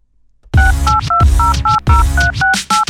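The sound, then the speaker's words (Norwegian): Touch-tone telephone keypad beeps follow a brief quiet start as a number is dialled. A rapid, loud series of short paired tones comes in quick, even succession. “så tror jeg kanskje bare vi må kjøre en hold linja til og ringe Ole Martin”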